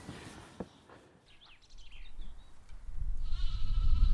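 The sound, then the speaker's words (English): Newborn lambs bleat in a countryside field. A few thin, wavering bleats come over a low, wind-like rumble, and the last cry is longer and louder. “see the little lambs that have just been born in the field. Hey, lambs.”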